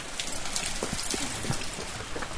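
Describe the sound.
Heavy pouring rain falls at a Buddhist pagoda and monastery in Évry, south of Paris, as a steady, dense hiss scattered with sharper droplet patters, with no voices.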